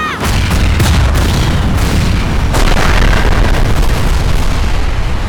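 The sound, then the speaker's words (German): Massive explosions erupt as F-5 fighter jets fire on monsters, throwing up huge fireballs. Several heavy booms and blasts pile into a loud, unbroken roar of deep rumble and crackling bursts, with no voices. “Eine Gruppe von F-5-Kampfjets war über uns hinweggefegt und hatte auf die Monster geschossen. Gewaltige Feuerbälle stiegen in den Himmel”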